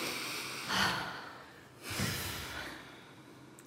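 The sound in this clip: A big deep breath: two long, soft, breathy rushes of air, one after the other, with no talking.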